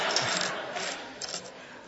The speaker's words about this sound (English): I must have a hole in my pocket. My keys just fell all the way down to my leg and through the